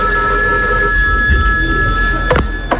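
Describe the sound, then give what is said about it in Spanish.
A telephone rings in an office: a steady electronic ringing tone runs through the whole stretch, loud and unbroken, with a couple of brief knocks near the end. “Ah, porque no ha sonado el teléfono. Ahora.”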